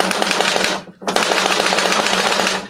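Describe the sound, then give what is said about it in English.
Rapid mechanical clatter comes from a classic hand-cranked machine-gun sound effect device turned clockwise fairly fast. It is a loud, dense, continuous rattle with one brief break early on, then steady firing to the end. “This is a classic piece of gear. Push this clockwise, kind of fast.”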